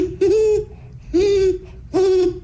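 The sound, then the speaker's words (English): A human voice imitates a great horned owl: three low, steady hoots, each held for about half a second, with short pauses between them. “And what about the owl you mentioned? The great horned owl?”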